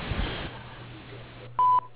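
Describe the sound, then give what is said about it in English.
Answering machine beep before a message is recorded: one short, steady, mid-pitched tone over faint line hiss and a low hum. “Please leave your name, telephone number, and a brief message after the beep, and we will return your call promptly.”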